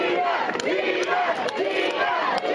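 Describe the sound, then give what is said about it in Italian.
A crowd of neighbours greets a teenage girl's homecoming with loud, steady cheering and shouting, many voices merging into one continuous roar with small swells throughout. “Avete sentito gli applausi con cui Gina è stata accolta dai vicini per questo suo ritorno a casa”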